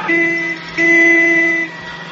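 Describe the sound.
A car horn sounds twice while someone drives to the hospital. A short honk is followed by a longer, steady one, both loud and alone.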